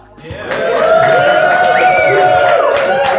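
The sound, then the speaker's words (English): A live audience at a DragonCon 2017 show recording cheers and whoops, a loud sustained roar with drawn-out shouts that swells up after a quieter start and holds steady. “We have a very obedient audience here today. Cheering whenever I tell them to.”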